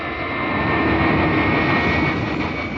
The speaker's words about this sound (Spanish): El avión tripulado por Calimán gana altura solo para trazar un círculo en el aire y descender casi a ras de las rocas para vigilar a los ladrones.